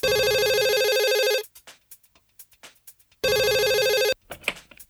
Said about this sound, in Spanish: atendió el primer llamado telefónico.